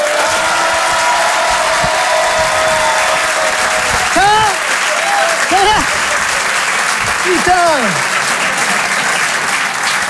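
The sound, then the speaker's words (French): Audience applause and cheering as a comedian is welcomed onstage at a stand-up show: dense, continuous clapping with whooping shouts and whistle-like cries that swoop up and down several times. “Mesdames et messieurs, ladies and gentlemen, Ibadallah, faites du bruit pour Boudère!”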